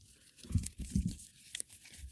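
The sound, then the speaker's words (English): Phase 10 playing cards being handled and cut during a fortune-telling game, giving a few crisp rustling and snapping bursts of card noise at a soft level, with no one speaking. “I'm making a lot of ASMR noises so they know I'm holding cards.”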